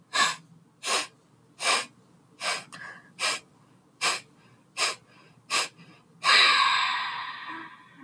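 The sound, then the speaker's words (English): Rapid, forceful breaths through the nose during yogic breathing practice: eight evenly spaced sharp bursts, followed by one long, loud breath that slowly fades. “we're going to take a deep inhale through the nose together. Inhale. And begin.”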